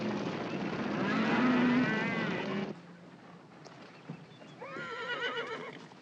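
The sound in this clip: A horse neighs during a cattle drive, with riders waiting among trees. There are two loud, quavering whinnies separated by a quieter gap of low rustling.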